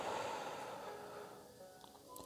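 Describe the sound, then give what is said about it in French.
A deep breath in followed by a slow exhale, soft and airy, the breathy hiss gradually fading toward the end. “Je prends une profonde inspiration et j'expire lentement.”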